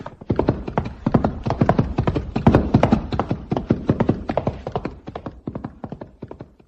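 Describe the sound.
Hooves clip-clop as horses gallop in a race, one of them a grey horse, with many rapid, evenly paced beats that stay loud and steady throughout.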